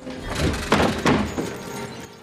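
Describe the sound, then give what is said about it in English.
Window shutters flying open and a sash window sliding up: two sharp bangs close together inside a loud, rumbling, scraping rush that fades out toward the end. “The shutters fly open and the sash slides up.”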